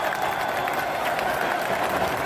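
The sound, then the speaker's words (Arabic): Moroccan fans applaud in Prince Moulay Hassan stadium in Rabat after the final whistle of the Morocco vs Brazil football match. A broad, even wash of clapping and crowd noise holds steady throughout, without clear breaks. “تصفيقات الجماهير المغربية في ملعب الأمير مولاي الحسن في العاصمة الرباط بعد صافرة نهاية مباراة المغرب ضد البرازيل”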